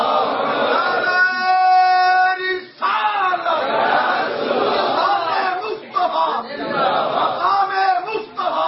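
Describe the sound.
A crowd answering the Naara-e-Takbeer chant during a religious address: one drawn-out call from a single voice, followed by a loud, sustained mass shout from many voices.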